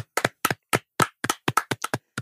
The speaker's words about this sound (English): Round of applause.